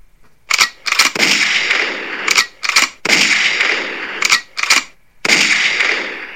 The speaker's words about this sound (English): She orders the guards to fire upon the intruding doppelganger.